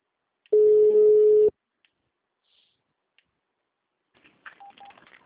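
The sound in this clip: A telephone keypad tone on a phone line during an automated call menu: one steady beep about a second long, alone, followed by a few faint brief chirps.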